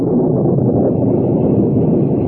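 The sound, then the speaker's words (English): Night storm with wind and torrential rain, a loud, steady roaring wash of low, rumbling noise that continues unbroken throughout, with no voices. “I've never known such a storm. The rain comes down in torrents.”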